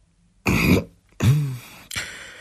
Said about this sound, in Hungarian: Fitzhubert Dongó hosszan szipogott, aztán harákolt, végül köhécselt.